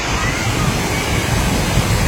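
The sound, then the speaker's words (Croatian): Steady rushing of a babbling stream at Jankovac on Papuk mountain, a continuous, even wash of water noise with no voices and no distinct events. “Potok, priroda i apsolutni mir. Šum koji zapravo oslobađa i savršeno.”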